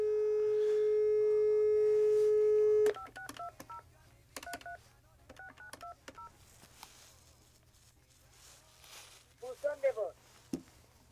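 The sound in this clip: Telephone call being dialed and transferred: a steady electronic tone holds for about three seconds, then gives way to short tones and voices over a low hum.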